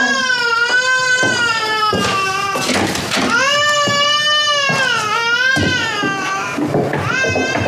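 Infant crying on waking, loud sustained wails with strong harmonic tone, broken by several short catches of breath and rising and falling in pitch throughout.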